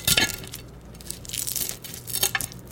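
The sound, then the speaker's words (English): Crispy fried eggs crackle and crunch faintly as they are cut through, the crisp edges giving a few short bursts of brittle crackling separated by quieter moments. “I'm gonna take that off the heat. I think that's done. And listen to this crisp as I cut through. Listen to these crispy edges.”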